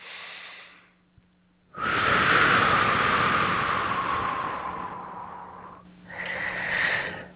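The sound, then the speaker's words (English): A deep breath drawn slowly and steadily, a loud airy rush sustained for about four seconds, followed after a short pause by a second, briefer breath. “Nice deep breath.”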